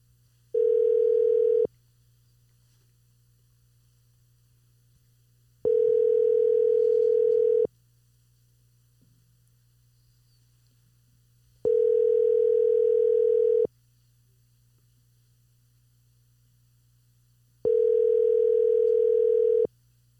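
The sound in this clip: Ringback tone of an outgoing telephone call: four steady electronic tone bursts, each about two seconds long, separated by longer silent gaps over a faint low hum.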